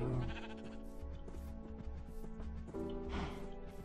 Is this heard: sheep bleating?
yes